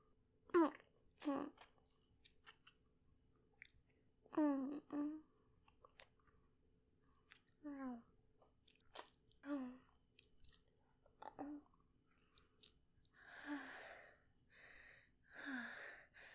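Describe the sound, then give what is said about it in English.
A voice imitates a vampire biting and chewing on a neck, producing a quiet string of breathy gasps, wet mouth smacks and small clicks, spread in short bursts across the whole stretch. “Master, if you keep this up, I'm gonna have to bite you. You asked for it.”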